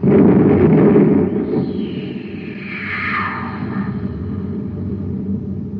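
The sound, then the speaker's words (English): A cosmic torpedo gun aboard a spaceship fires a torpedo: a loud, deep rumbling blast opens, then a high whooshing tone sweeps downward while the low rumble lingers steadily beneath it. “Fire the torpedo.”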